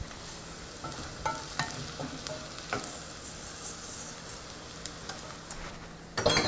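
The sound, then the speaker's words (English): Rice frying in hot oil with dried sage in a pan, a soft, steady sizzle broken by a few sharp scrapes and taps as the grains are stirred, ending in a louder burst of crackling. “And this is starting to brown up quite a bit. So I'm going to go ahead and throw in my rice.”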